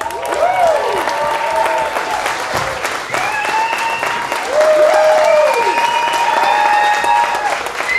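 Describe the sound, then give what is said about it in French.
Applause greets a guest as a studio audience welcomes her, mixed with whoops and cheering voices that rise and fall in pitch. The loud, dense clapping stays steady for about eight seconds, with no words spoken. “S'il vous plaît, accueillez avec énormément de chaleur Maud Landry.”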